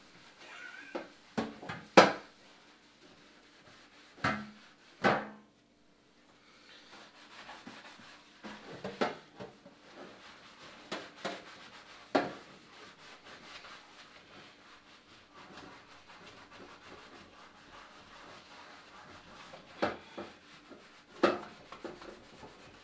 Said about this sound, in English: I'll scrub you so clean, babe. Who's a dirty pan?